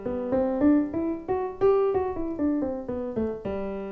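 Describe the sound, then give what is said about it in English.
A G major scale played on an instrument: a steady run of clear, sustained notes rich in harmonics. The notes step up in pitch and then back down, loud and heard alone. “Now if I play a G major scale, it sounds like this.”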